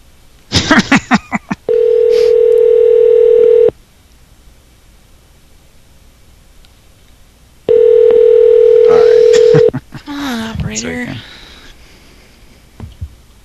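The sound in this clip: A telephone dial tone after hanging up: two flat, steady stretches of about two seconds each, separated by quiet. A rapid burst of clicks comes first, and brief voice-like sounds follow the second tone.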